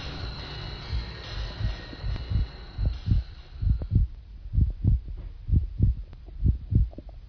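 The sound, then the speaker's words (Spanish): Muffled heartbeat, told as a man's heart still beating beneath a heavy mattress: low, dull thumps in a steady rhythm, many beats in paired pulses, with a faint hum fading early on. “Pero, durante varios minutos, el corazón siguió latiendo con un sonido ahogado.”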